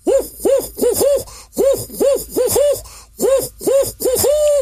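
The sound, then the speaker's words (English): A voice imitates the hooting call of a barred owl: many rounded, rising-then-falling hoots in quick bursts, ending on one longer drawn-out hoot, loud and alone. “the barred owl for sure, that you've probably heard before, that makes the hooting sound, kind of goes like this”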